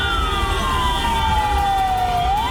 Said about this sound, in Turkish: Ambulansın yolunu işte böyle açtı.